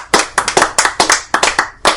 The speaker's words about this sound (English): A round of applause for Billy.